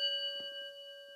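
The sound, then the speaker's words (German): A bell rings once, its bright, layered metallic partials sustaining evenly through the short clip at low volume, with a few soft faint knocks beneath it. “Heute klingeln bei uns die Glocken besonders häufig.”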